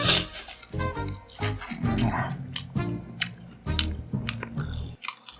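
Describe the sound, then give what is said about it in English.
Someone eats leftover fast-food fries mukbang-style, with crunchy, moist chewing and bites in an irregular rhythm, close and alone without talk. “there's so many fries left. My own personal mukbang.”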